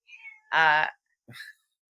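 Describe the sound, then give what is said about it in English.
A pet cat meows once, loudly and drawn out, with a rich harmonic tone, followed by a short, fainter vocal sound. “That's my cat meowing.”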